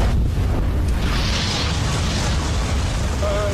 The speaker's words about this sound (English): There's a vintage Bentley on fire headed in your direction.